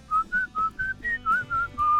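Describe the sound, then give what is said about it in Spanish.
A person whistles eight short, clear notes in a steady rhythm, each held briefly at a similar pitch, with faint low background noise underneath. “Lo más económico es silbando.”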